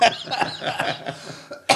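Coughing after choking on something swallowed the wrong way: a rapid run of harsh, loud coughs with some throat clearing, ending in a final sharp cough.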